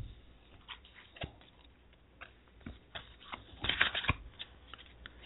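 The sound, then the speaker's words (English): Tarot cards are shuffled in quiet, scattered riffling bursts, with a denser flurry of soft flicks near the end. “So this is about relationships. Let's pull some cards for you.”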